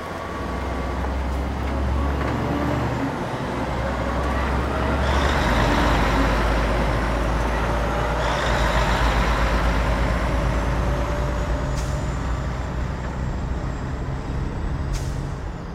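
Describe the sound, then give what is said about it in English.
Several vehicles drive off along a dark, deserted road: a steady, heavy engine rumble with broad road noise, briefly swelling midway, with a few short hisses near the end and no talk. “they all climbed into their vehicles and drove off, leaving us alone on the dark, deserted road.”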